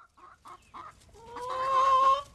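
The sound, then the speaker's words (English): Backyard chickens clucking: several short, separate clucks, then a longer, louder drawn-out call that swells and holds before cutting off, with no talking. “Adams and her neighbor converted a lawnmower shed into a chicken coop. Then they ran out to buy some baby chicks.”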